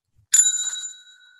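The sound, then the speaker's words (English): A small hand bell rung once as a game show ding, heard as a bright, sharp strike followed by a clear ringing tone that fades away within about a second. “I have a bell right next to me. I have my Zach's bell.”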